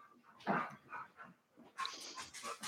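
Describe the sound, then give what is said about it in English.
A happy-sounding dog barks: a series of short, fairly faint barks and yelps with brief pauses between them and no voices. “He sounds happy. That's a happy sounding dog.”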